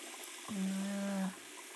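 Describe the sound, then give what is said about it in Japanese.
Hot water running from a tap during a hair wash at a salon: a steady watery hiss with a low, even hum that swells for just under a second, then settles back. “それではお湯を出して”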